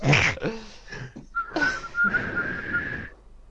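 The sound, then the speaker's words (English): A person whistles in imitation of telephone dial tones, holding a single steady high note for about two seconds after a few short breathy sounds. “Whistling dial tones at him.”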